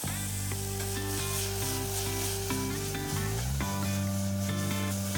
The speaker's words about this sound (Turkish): Soğanlarımız iyice kavruldu. Sirkeyi ekleyeceğiz. Hemen sonrasında da kuskusu ekleyerek risottoyu bitireceğiz.